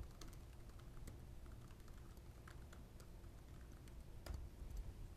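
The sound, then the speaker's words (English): Faint typing on a computer keyboard as a command is entered: sparse, uneven key clicks over a steady low hiss. “So if I come back over here to my Chef Demo 1 cookbook, I could type in Chef Generate Template and give it a name.”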